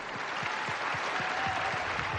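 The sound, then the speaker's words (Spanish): Steady applause from an audience at a special appearance before the Latino community in Houston, a dense continuous clatter of clapping at even loudness, with no voices standing out. “Kennedy recibe un gran aplauso antes de presentar a Jackie al público.”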